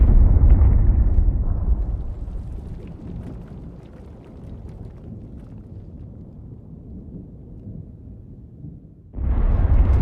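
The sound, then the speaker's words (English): Artillery shells explode over a city under bombardment. One heavy blast opens and fades into a long, low rumble, then a second loud boom hits near the end. “German artillery bombard the city morning to night.”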